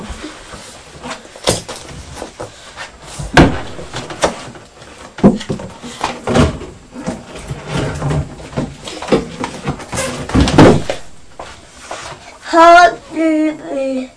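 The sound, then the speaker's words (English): A child banging a door at home: a series of sharp wooden thumps and knocks in an irregular rhythm, some loud and some softer, with a voice heard briefly near the end. “Be careful, bang the door. Banging. No, don't bang anymore”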